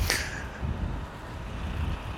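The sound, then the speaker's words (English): A big truck passing by during a winter walk, a broad, low roar of engine and tire noise with a hissing top, holding fairly steady for a couple of seconds after a brief brighter whoosh at the start. “Oh, big truck.”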